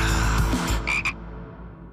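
Frog croaking in two quick, bright croaks close together, standing out over a dense, steady background sound that fades away toward the end.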